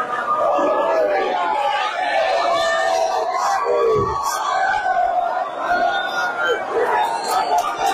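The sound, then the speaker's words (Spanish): Many citizens cross from the Spanish side into Gibraltar on the day the border fence fell, filling the air with a steady crowd babble of overlapping voices. The hubbub stays fairly even in loudness throughout. “Este es el sonido de los ciudadanos pasando del lado español al gibraltareño.”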